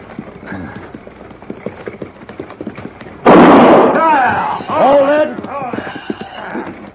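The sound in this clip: A single loud gunshot fired into the air as a warning on a trail beside a dry lake cracks out suddenly over a low, steady rumble. Its ringing tail fades over about a second, followed by harmonic wavering cries.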